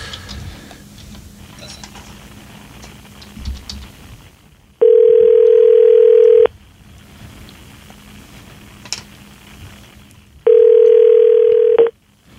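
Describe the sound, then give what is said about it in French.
Telephone tones while a call is placed, two steady, evenly pitched beeps of about a second and a half each, separated by several seconds, over faint background noise. “OK, on compose.”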